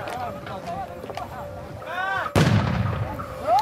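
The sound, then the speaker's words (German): A grenade explosion bursts out as one heavy, sharp boom that rumbles and decays over about a second. People are talking before and after the blast. “It's some grenades”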